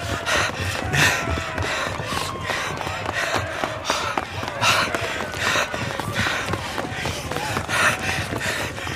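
Hurried footsteps run up a long staircase amid heavy, breathless panting, a dense stream of quick rhythmic thuds and gasps that keeps up without pause.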